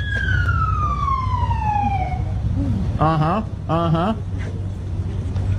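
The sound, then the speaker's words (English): A police siren during an arrest: a long falling wail, then two short warbling whoop bursts over a steady low rumble. “Whoop, whoop. That's the sound of the police.”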